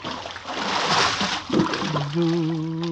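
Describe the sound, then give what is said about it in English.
A person pushed overboard splashes into water in a radio drama: a broad burst of splashing and sloshing, a short second splash, then a voice cries out over fading water. “Hey, why you're pushing me overboard? Hey! Help, Willie. You mustn't wake the others. But I can't swim.”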